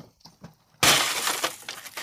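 Glass shattering as a car is smashed up at a Dutch car-smashing venue near Amsterdam; a few faint knocks come first, then a sudden loud crash spreads into a sustained crunching spray of breaking glass.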